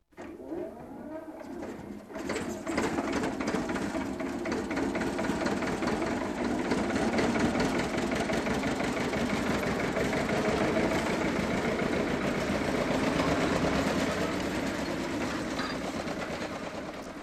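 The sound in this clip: A Bulldog tractor engine runs with a steady, loud chugging rumble and regular thumping pulses. It starts quietly, swells to full level after about two seconds, then holds constant to the end with no voices.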